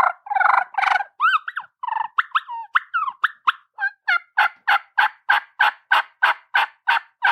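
A turkey call device plays kee-kee and yelping notes. An irregular run of high, whistled, breaking calls gives way to a steady, evenly spaced series of many short, sharp notes.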